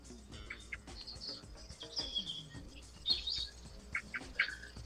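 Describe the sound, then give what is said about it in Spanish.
Birds chirp and sing outdoors in the morning, with many short high tweets and calls scattered irregularly over a faint, steady background. “Oyendo todos los pájaros, todos. Es increíble la cantidad de ellos que hay. Dejas un momento el sonido de los pajaritos, ¿eh? A ver si canta.”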